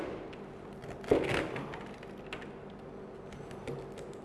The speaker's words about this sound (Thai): เราจะทำการตัดกล้วยนะครับนะครับตัดกล้วยนะครับ